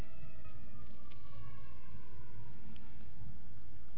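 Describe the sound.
An ambulance siren wails in a slow, falling sweep over steady low rumbling noise, continuous throughout with no voices.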